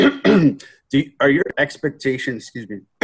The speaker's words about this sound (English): No, I am choking on a potato chip here. Excuse me.